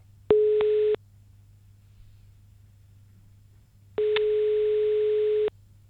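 Telephone tone heard while placing a call: two steady, mid-pitched tones separated by near-silence, the first short and the second about twice as long.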